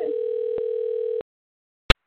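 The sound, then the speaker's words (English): A telephone call is dialed: a steady electronic tone, briefly broken midway, stops abruptly and is followed by a single sharp click. “I'm going to dial her in now, and just I can't wait. So let's get to this. We're dialing currently.”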